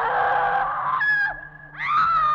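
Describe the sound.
A shrill, wavering scream effect echoes through an old building in a spooky scene. Two drawn-out, goose-like cries are split by a short dip, and the second rises sharply before holding steady.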